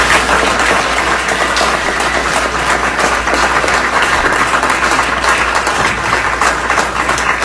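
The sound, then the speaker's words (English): Applause from city-county councilors standing after a vote to raise vehicle taxes: dense, even clapping that holds at a steady, loud level throughout, with a low continuous hum underneath. “The Democrats, city county councilors, celebrating raising vehicle taxes on working families, says State Rep. Andrew Ireland. They stood, they clapped, they cheered.”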